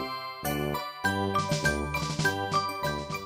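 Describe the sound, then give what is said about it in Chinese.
A DJ plays children's party music with bright, jingly bell-like tones in a bouncy rhythm. Short repeated notes sit over a bass line at moderate volume, with no voices. “不是，你听到的就是 DJ 放的音乐咯。”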